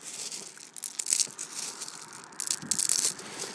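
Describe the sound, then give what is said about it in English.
A man's right hand rummages through a big bag of grey granite gravel, making soft, gritty rattling and crunching of small stones. The sound comes in irregular bursts, mostly quiet with a couple of louder surges. “That's the sound of a man's right hand going through, what do they call them? Little bits of granite. Yeah, grey granite.”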